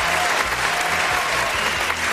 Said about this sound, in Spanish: Un fuerte aplauso para Albert Trujen.